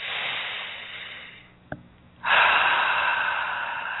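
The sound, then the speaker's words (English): A deep breath is drawn in with a soft, airy hiss. After a short silence and a tiny click, a long, louder exhale follows and slowly tapers off. “Nice deep breath. One more.”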